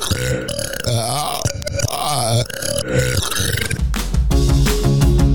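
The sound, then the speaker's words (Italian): Many loud burps, some played normally and some reversed, run together in deep, croaking, gurgling bursts with only brief gaps between them. “E niente, rutti sia normali che al contrario, da adesso.”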